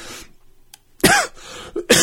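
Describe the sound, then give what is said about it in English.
Harsh coughing from a man delivering a sermon: a few loud, rough bursts come close together near the end, with a quieter stretch before them and no speech. “I apologize for the coughing.”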